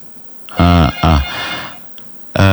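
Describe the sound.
Telephone ringing on a call-in radio show: two short, loud buzzy rings in quick succession, a pause, then a third ring starting at the end.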